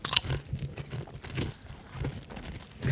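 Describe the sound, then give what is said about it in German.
Crunchy honey-mustard potato chips being bitten and chewed, with many crisp crunches in an uneven chewing rhythm, close and fairly loud, with no talk over them. “Naja, wir essen Chips und andere Sachen.”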